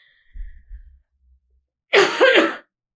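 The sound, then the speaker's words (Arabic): A woman coughs hard once, a brief, forceful, raspy burst that stands out sharply against near silence. “خذي كحة زينة وارفع فوق، لا تنزلين تحت”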